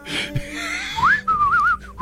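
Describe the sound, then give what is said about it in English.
Solo whistling through pressed lips: a clear, bright tone that glides upward, then wavers in a warbling melodic line over steady background noise. “Oh, guys, you know the one thing that no one ever does? A whistle solo?”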